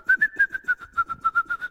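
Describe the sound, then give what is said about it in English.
A person whistles while walking along, producing a quick, even run of many short notes at a steady high pitch. Each note is clipped and clear, and the notes follow one another in a regular rhythm. “I whistled as I would walk along and”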